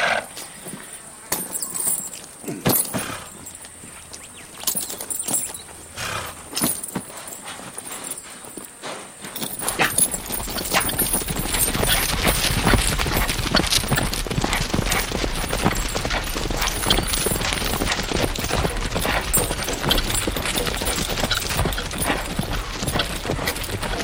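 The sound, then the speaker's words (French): Horses' hooves clip-clopping, sparse and uneven at first, then becoming a dense, steady stream of many hoofbeats that continues loudly to the end. “Nous avons réservé un de nos meilleurs chevaux.”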